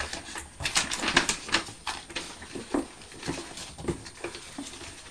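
Scissors make a run of sharp, irregular snips and clicks, some louder than others and separated by short gaps, with no talk over them.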